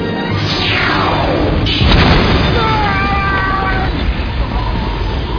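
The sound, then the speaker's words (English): Laser weapon fire and an explosion from film footage: descending, sweeping electronic zaps lead into a loud, broad blast, followed by wavering, siren-like tones over a constant loud rumbling roar. “Fire the laser!”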